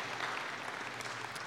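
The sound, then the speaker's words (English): Steady, dense applause from a church audience welcoming new members, even and unbroken throughout. “we set a standard a few weeks ago when we did this, and y'all clapped. And so now you have to do it every time we do it. So otherwise, they'll feel judged.”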